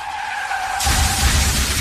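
A car skids in a vehicle-protection advert, with a loud, sustained tire screech that suddenly swells into a broader, rougher roar partway through and holds steady to the end.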